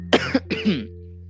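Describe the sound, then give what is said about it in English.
A person coughs in two short, harsh bursts, each with a double hack, followed by quiet. “he just coughed.”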